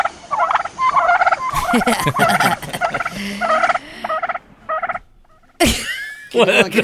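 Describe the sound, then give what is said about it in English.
Turkeys gobbling while mating: loud bursts of rapid, warbling gobbles separated by brief pauses, with a harsh sudden burst near the end. “That was the most dark and ominous turkey I've ever heard. Hold on. Is this turkey's mating? Is that turkey okay? They're mating.”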